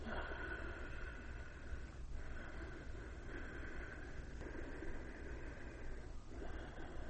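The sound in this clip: Breath drawn with a constricted throat rather than through the nostrils makes a steady, rushing hiss that runs throughout, swelling and easing over a few breath cycles.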